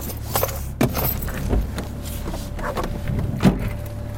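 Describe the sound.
Steady low rumble of a car driving and turning, heard from inside, with a few soft clicks and knocks over the engine and road noise.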